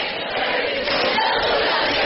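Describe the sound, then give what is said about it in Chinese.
Audience at a comedic stage performance jeering and egging on the performers: a dense, loud roar of many voices shouting together, steady and sustained throughout. “行，你们就别跟着起哄了啊！”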